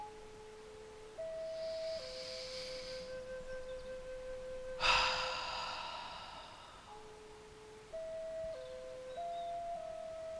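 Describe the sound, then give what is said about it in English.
One deep breath during a relaxation exercise, a faint intake through the nose followed by a louder, airy exhale through the mouth that fades slowly, over soft sustained musical tones. “3 deep breaths in through the nose and out through the mouth, filling your entire lungs all the way down to the bottom of your belly.”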